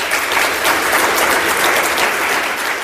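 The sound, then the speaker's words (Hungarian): An audience applauds at a prize event for a children's recitation competition, a loud, steady wash of many hands clapping that continues without pause and without audible voices. “Úgy gondolom, hogy ez önmagában is megér egy nagy tapsot.”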